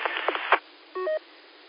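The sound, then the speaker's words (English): A short roger beep closes a radio transmission: a brief buzzy tone steps up to a higher, clean beep, right after a burst of narrow, band-limited radio talk. “I think you got a Roger beep going on there. Somebody's been checking in with a Roger beep anyway.”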